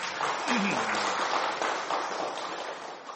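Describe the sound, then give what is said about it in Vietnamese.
Faint, steady applause from an audience at a Vietnamese Buddhist teaching session, a soft continuous patter of clapping with a voice briefly heard over it early on. “Cần vỗ tay theo.”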